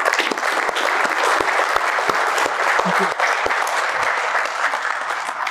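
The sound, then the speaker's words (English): Audience applause welcoming a speaker to the stage at a talk, dense steady clapping from many hands that stays loud and even throughout with no voices over it. “So please put your hands together and welcome Ernest Chapman.”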